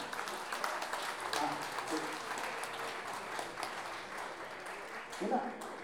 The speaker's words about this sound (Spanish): Un aplauso grande para nuestras compañeras.